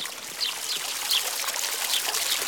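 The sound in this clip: Water pours from a jug in a steady, unbroken stream, a bright, hissing trickle that keeps an even loudness from start to finish.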